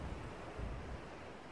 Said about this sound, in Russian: Волнение воды, вызванное проплывшим рядом судном, постепенно утихло.